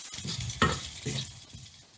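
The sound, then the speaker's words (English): Peas stirred in a frying pan: a few soft scraping strokes over a steady, quiet sizzle, with no talk. “So I'm just stirring it, and you put the peas, and that's it.”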